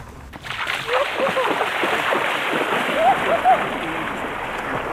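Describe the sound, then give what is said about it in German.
A person splashes while swimming in the Danube at a sand and gravel beach in a national park, with continuous sloshing and churning water that stays at an even, fairly loud level throughout. “Wir sind hier an einem wunderschönen Sand- und Kiesstrand angekommen. Also jetzt, wo wir da sind, ich gehe jetzt noch schnell in der Donau schwimmen.”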